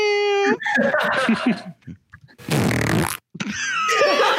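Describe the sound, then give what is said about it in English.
A fart sound effect from a soundboard: loud rasping, sputtering blasts with a noisy burst in the middle, then wobbling squeaky tones, all within a few seconds and without talk. “I just clicked on the one that said fart with an exclamation point. That's what it was.”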